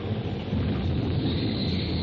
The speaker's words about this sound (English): Finally, with one mighty clap of rolling thunder, the tornado spends itself in a last effort.